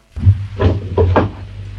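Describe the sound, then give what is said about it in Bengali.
A door is opened with a few short, hollow clunks and rattles of the latch and handle, spaced unevenly over under two seconds, with a low hum underneath. “দরজা খুলে দাও”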